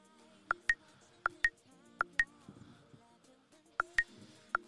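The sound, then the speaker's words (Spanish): A phone rings for an incoming call as repeated pairs of short, bright electronic beeps. The pairs come at an even pace, with a longer pause midway, over a faint background. “Está llamando. ¿Se está llamando, Dayson. Contesta.”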